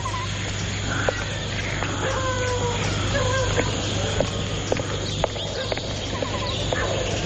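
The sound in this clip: A horse is mounted and ridden away in a 1920s-set drama, with a few scattered hoof clops sounding over a steady low hum and busy background noise.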